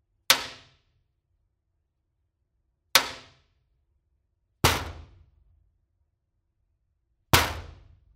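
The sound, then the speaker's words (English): Four sharp, loud bangs from a yarn-topped wooden drumstick striking a garage door in a warehouse, close-miked. Each hit is a hard percussive crack with a brief ringing decay, separated by silence. “I just went back into the warehouse with a drumstick. It's got a yarn top and it's just a regular wood handle. And I just started banging on the garage door back in our warehouse”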